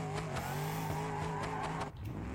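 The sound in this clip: A car drifts in a driving simulation video game, with a steady droning engine and tyre screech throughout, dipping briefly near the end.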